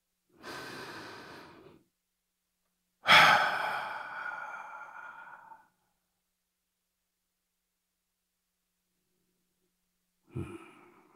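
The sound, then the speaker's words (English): Slow, deep breathing before a story reading: a soft inhale, a pause, then a louder, long sighing exhale that fades out. After a long silence comes one brief breathy sound. “let's take a deep breath.”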